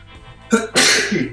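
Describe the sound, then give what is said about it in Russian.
A single loud human sneeze: a short gasping intake, then a sharp, noisy burst that trails off. “Сейчас, извините, пожалуйста, я чихну.”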